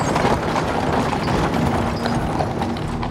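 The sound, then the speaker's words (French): Hooves clop on cobblestones as a wagon drawn by two horses enters a courthouse's paved courtyard, with many hoofbeats forming a dense, continuous clatter throughout. “Un fourgon tiré par deux chevaux pénètre dans la cour pavée du palais de justice.”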